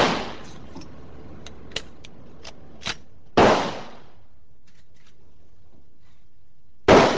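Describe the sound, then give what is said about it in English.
Gunshots from a shoulder-fired gun at a shooting range: two sharp, loud reports with fading tails about three and a half seconds apart, the tail of an earlier shot at the start, and a few faint clicks in between. “stares down the line of his target, brings the weapon up to his shoulder, and fires.”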